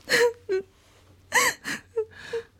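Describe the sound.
Crying in the form of breathy, shuddering sobs and gasps, about six uneven bursts with quiet breathing between them. No words are spoken.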